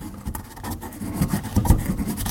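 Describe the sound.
Herbs are ground for a gris-gris mixture with rough, rasping scrapes that come in irregular bursts, swelling and fading at a moderate level.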